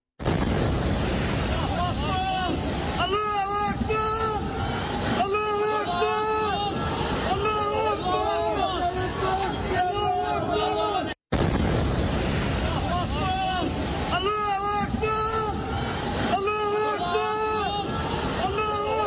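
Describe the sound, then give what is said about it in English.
Heavy roaring rumble of a massive apartment tower in Gaza collapsing after an airstrike, a loud, steady wash of noise with voices over it, interrupted by one brief break partway through. “It is the total collapse of a massive tower inside Gaza, the result of a Israeli airstrike.”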